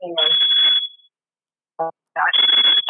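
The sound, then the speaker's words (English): A smoke alarm set off by burning cookies, its high, shrill steady tone sounding in two stretches while a person talks over it. “You got the smoke alarm going off because the cookies are burning.”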